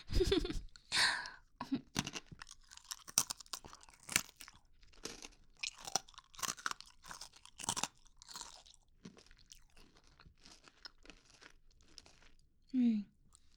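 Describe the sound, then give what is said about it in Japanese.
A crunchy snack is eaten, with sharp crunching bites and chewing. These come in irregular bursts separated by pauses, and a little wrapper crinkling is mixed in. “おいしい。やっぱりお腹空いてる時のお菓子ってなんでおいしいんだろう、こんなに。”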